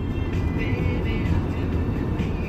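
A car drives along a road in the coastal town of Saki in Crimea. Its engine and tyre noise form a steady, loud rumble with no break.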